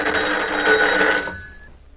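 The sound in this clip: Telephone bell ringing in a family home: a dense, metallic ring with a trembling rattle that holds for over a second, then stops and fades away quickly.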